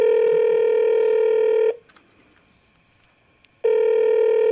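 Ringing tones of a telephone call: a long, steady, mid-pitched buzzing tone, a pause of near-silence with faint background noise, then the same tone returning and continuing to the end.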